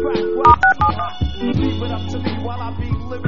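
Touch-tone dialing of a telephone number for a prank call: a few quick beeps near the start, followed by lower sustained humming tones.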